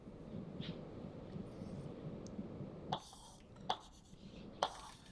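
Scratchy drawing strokes as diagrams of junctions and crossings are sketched on an XY picture: faint low rustling at first, then three sharper scraping strokes spaced roughly a second apart.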